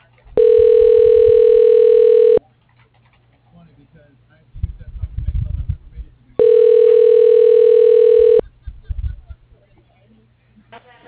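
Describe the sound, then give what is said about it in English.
Telephone ringback tones as an outgoing call to a tractor business connects: two long, steady, loud buzzing tones of about two seconds each, separated by a pause with faint low rustling noise between them. “Dialing.”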